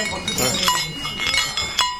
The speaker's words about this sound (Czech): Tohle není cinkot kravských zvonců, to do sebe naráží dvě zlaté, jedna stříbrná a tři bronzové medaile, které dokázal Lukáš Krpálek